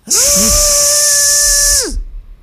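High, steady whirring motor whine with hiss from a Ninja blender blending cherries, pineapple, mango, milk and sugar, loud and continuous for about two seconds before the pitch drops as the motor winds down.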